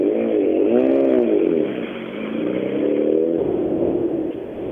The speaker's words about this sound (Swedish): Häftig bilen där, M3an.